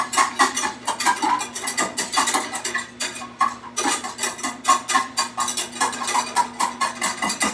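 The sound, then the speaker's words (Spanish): Stirring garlic butter in a pan over medium-high heat: a utensil scrapes and clinks against the pan in a busy, continuous rhythm, fairly loud, with no talking. “Así, a fuego medio alto, vamos a estar mezclando para que la mantequilla no sepa a ajo.”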